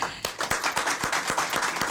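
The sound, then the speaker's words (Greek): Rhythmic clapping from a Greek television audience welcoming a singer on stage. The claps land in unison at a steady pace of roughly four per second, clear and evenly spaced, with no voices. “Και ένα δυνατό χειροκρότημα θέλω.”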